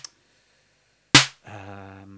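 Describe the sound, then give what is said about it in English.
A single snare hit from a drum machine with its snappy filtering turned lower: a sharp, noisy crack with a short low body, which decays quickly after a moment of silence. “Now we can bring up the snappy. Now the snappy the snappy filtering is lower, so you'll hear a”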